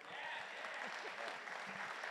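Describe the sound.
An audience claps to welcome a speaker, a steady, even wash of many hands clapping that stays at a constant, fairly soft level throughout.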